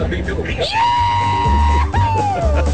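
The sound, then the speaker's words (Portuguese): A person shouts a long, high, sustained yell held on one pitch, then gives a second, shorter cry that drops in pitch at the end. Both are loud, with a low rumble underneath. “então dá um grito pra nós aí, dá um grito”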